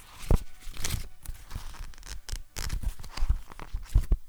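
Pages of a paper notebook being flipped: many quick, crisp papery rustles and snaps follow one another in an uneven rhythm, fairly loud and without voices.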